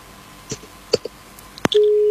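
Telephone tone after a call to a phone-in line cuts off: a few faint clicks and ticks, then a single steady low beep that sounds alone near the end.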